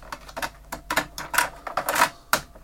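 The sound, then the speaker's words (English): Sharp plastic clicks and knocks come from a cassette tape being flipped over and pushed back into its player, many quick irregular taps and rattles in a quiet background. “Let's see what's on this tape. Absolutely nothing. Now on that side, let's give it a flipper.”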